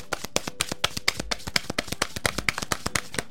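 A deck of message cards is shuffled in a quick, even run of many crisp clicking riffles, sharp and fairly quiet, with no talk over them.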